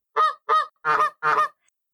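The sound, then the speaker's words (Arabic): Quacking from a duckling and its mother duck in flight: four loud, harmonic quacks in an even rhythm, each about a quarter-second long. The last two are fuller and lower than the first two, and no other sound is heard. “في قديم الزمان طار فرخ البط والبطة الأم في السماء”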